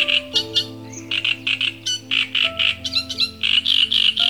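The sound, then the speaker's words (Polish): Croaking, chattering phrases of a great reed warbler, a bird of reeds and wet lakeside grasses, repeat in many harsh, grating bursts with short gaps. Steady low sustained tones run underneath throughout. “ale także trzciniak. I tego już Państwo mogą kojarzyć po głosie.”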